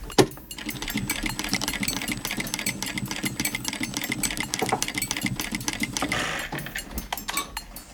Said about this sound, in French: l'assembler à la machine. Je vais repasser sur ma première piqûre ici. Je lève mon pied presseur, je positionne mon aiguille.